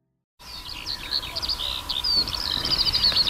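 Birds singing as they fly overhead, with high, rapid twittering chirps and trills over a steady low hum, starting after a brief silence and growing busier.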